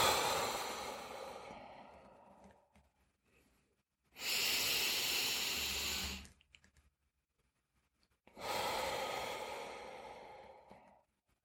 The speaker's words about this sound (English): Inhale through your nose. Exhale.